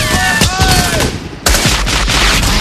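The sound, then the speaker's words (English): Heavy gunfire from a German 20 mm wheeled gun and the soldiers firing on it in a war film battle scene. Rapid, sharp shots crackle in dense bursts, dip for a moment, then burst back in loudly. “In the town center, Ryben, Miller, and Ryan fire on the 20 mil. The German soldiers train the wheeled gun on their attackers.”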